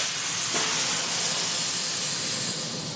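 Steady, broad hissing roar of a river cargo freighter's engine as the throttle lever is opened in the wheelhouse, on a run from Basel toward France; loud and even throughout, with no voices.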